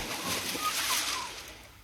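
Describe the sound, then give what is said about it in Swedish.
A diver plunges into water with a soft, brief splash: a burst of airy, sloshing noise that swells and then fades away, fairly quiet and heard alone. “undervattensagent nummer 0, hemliga Boll, dyker nu ner för att spana. Plums i böljan, se upp!”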